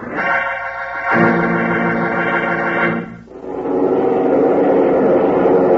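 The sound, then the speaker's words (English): Propeller engines of a DC-7 airliner running ready for takeoff. A loud steady harmonic drone dips briefly about midway, then gives way to a louder, broader roar that holds to the end. “Hear that? That's a United Airlines DC-7 mainliner ready for takeoff.”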